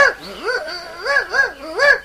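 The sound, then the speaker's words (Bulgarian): Dog yelping and whining in a few short, high, rising-and-falling cries separated by brief pauses, fairly loud and without talk. “Кучето само ми дай.”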